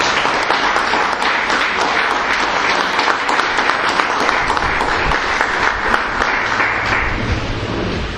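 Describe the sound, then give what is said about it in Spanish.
Applause for a speaker: a crowd clapping steadily and densely, loud and sustained from start to end with no break. “un aplauso para el compañero”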